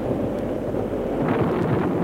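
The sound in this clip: Storm wind blusters across a mountain pasture in a steady, heavy low roar with a deep rumbling undertone, rising slightly in strength toward the end.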